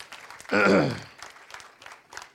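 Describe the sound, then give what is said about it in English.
Audience applause with clapping hands after a church family blessing, opening with a loud burst mixed with a voiced cheer, then settling into fainter scattered claps for the rest. “Give them a big hand clap.”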